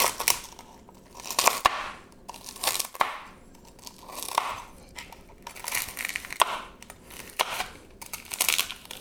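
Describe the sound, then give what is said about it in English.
Crispy bacon cracking as it is broken and then cut with a knife for mofongo, giving many sharp, dry crunches in irregular bursts, fairly loud and with no talk. “I'm going to break it in half. You can hear how crispy it is. So you probably heard that. We're going to cut this up.”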